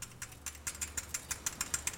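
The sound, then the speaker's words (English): Rapid, evenly spaced clicking of a prize wheel being spun, a steady run of many sharp ticks that starts faint and quickly grows louder, with no talk over it. “Yeah, let's give it a spin. Let's spin that wheel.”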